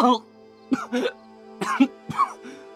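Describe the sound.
A voice acts out violent coughing by a man who has just been punched and has dropped to one knee: several harsh, throaty, voiced bursts in uneven clusters, separated by short pauses.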